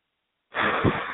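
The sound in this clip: A person forcefully blows out a long, steady breath of air during an emotional-release exercise: one sudden, loud, breathy rush that starts abruptly and holds for under a second, with a brief swell midway.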